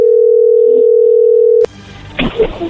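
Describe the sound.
A telephone dial tone plays before a call: a loud, steady, unbroken tone at one pitch holds for over a second and a half, then cuts off with a sharp click, leaving faint rustling and small handling noises.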